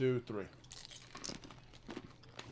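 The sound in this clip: Crunchy chewing of M&M's candy, heard as faint irregular crackling bites after a brief vocal sound at the start.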